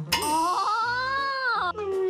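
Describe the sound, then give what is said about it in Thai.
A person crying in a long, drawn-out, wavering wail that stays loud and continuous for about two seconds. “นายเองเหรอที่ร้องไห้เนี่ย ใช่ฉันเองที่ร้องไห้นี่แหละ”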